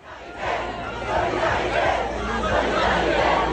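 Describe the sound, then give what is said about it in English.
A crowd of street protesters in France demonstrates over the state of French schools, a dense, continuous roar of shouting and chanting voices that swells slightly and holds at a loud level. “That's the sound of more demonstrations over the state of French schools,”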